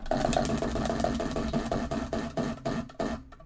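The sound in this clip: Rapid, steady ticking from a spinning question wheel, with clicks that stay loud and even before spacing out and slowing toward the end as the wheel winds down, over a faint constant hum.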